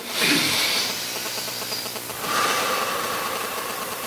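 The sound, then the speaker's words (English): A group breathes in through the nose and out through the mouth together, making two long, airy, hissing breaths one after the other with no talking. “I want you to breathe in through your nose and out through your mouth. Let's all do it together.”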